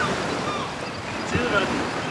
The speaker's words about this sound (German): Die Meereswellen schlagen tosend wider die scharf gespitzten Felsen.